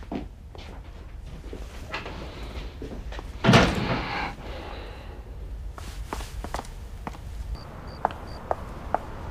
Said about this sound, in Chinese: 过来， 把门关上。